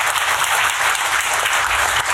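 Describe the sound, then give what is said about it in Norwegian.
Loud, dense applause of many hands clapping, an even wash of claps that holds at the same level for the whole clip. “Applaus for det, selvfølgelig.”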